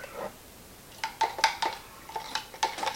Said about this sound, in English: Rinse off the old stir stick.